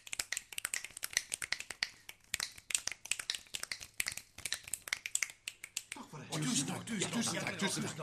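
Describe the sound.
Rhythmic finger snapping played as a tune by performers, a quick run of many sharp, crisp snaps in an uneven musical pattern that ends in a denser, softer wash of noise.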